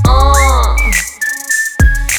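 Human whistling in a pop song: a clear high whistle holds a few sustained steady notes over low backing music, following a sliding tonal sound at the start.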